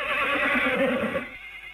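A horse whinnies as a flying horse is summoned in a fantasy tale, one loud, wavering neigh with a rough, shaking tone that holds for about a second before cutting off abruptly.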